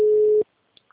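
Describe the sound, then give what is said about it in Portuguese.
A telephone busy signal: one steady, low-pitched tone sounds alone for under half a second, then cuts to silence broken by two faint clicks. “Vou fazer ligação. O número está ocupado.”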